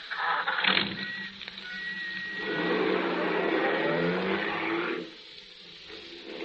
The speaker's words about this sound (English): Hop in. I'll drop you wherever you like. You're very kind. Thank you. Just drive it around for a while, cabby.